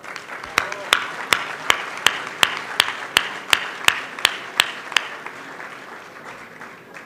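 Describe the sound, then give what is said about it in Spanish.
Rhythmic unison clapping from an audience thanking donors to the Centro Ibn Gabirol: about thirteen sharp, evenly spaced claps over a broad crowd wash, then the beat stops and a softer murmur remains. “Para todos ellos, pido por favor un aplauso.”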